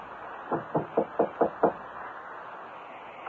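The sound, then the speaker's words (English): Knuckles rap six times on a door at the end of an apartment building corridor, evenly spaced and firm, with a muffled, hollow tone and quiet around them. “knocked.”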